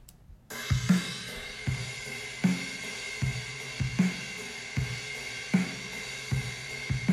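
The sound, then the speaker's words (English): A simple drum part from a song's chorus, playing alone: low kick thumps and snare hits repeat in a steady, regular groove at a fairly quiet level. “I got a little bored of the drums, which sound like this.”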